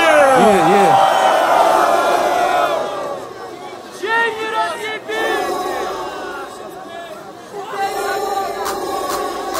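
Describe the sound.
The audience at a St. Petersburg rap battle roars and cheers loudly, with shouts, whoops and chatter. The crowd noise swells and dips without stopping for nearly ten seconds.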